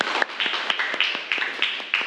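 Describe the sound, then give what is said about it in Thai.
A class clapping for a classmate, many quick, evenly spaced claps in unison over a dense, noisy wash of hands. “ปรบมือเพื่อนหน่อยค่ะ”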